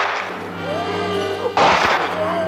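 A single abrupt, loud gunshot in a German radio drama, fired at a glowing, spark-spraying hound, bursts out of a steady droning, tonal background and leaves a broad, lingering roar that carries to the end.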